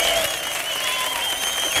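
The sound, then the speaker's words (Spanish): A studio audience applauds and cheers loudly: about two seconds of dense, steady clapping mixed with cheering voices. “Qué ambientazo que tenemos el público. Hoy tenemos un público de 5 Jotas que suena así de fuerte.”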